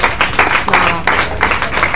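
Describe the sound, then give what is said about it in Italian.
Audience applause of thanks at a talk: a loud, dense clatter of many hands clapping that surges in a few waves over two seconds, with no voices. “Io le farei un applauso di ringraziamento.”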